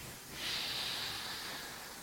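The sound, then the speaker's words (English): One long, drawn-out breath during a deep breathing exercise: a soft, airy hiss that swells in and then holds steadily for over a second, with no talking. “So let us practice this for 2 minutes.”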